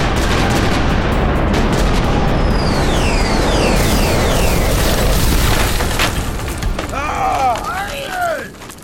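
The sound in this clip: Loud gunfire and cannon explosions as an army opens fire in a battle. A dense, continuous roar of blasts carries several descending whistling tones, then voices shout near the end as the barrage eases.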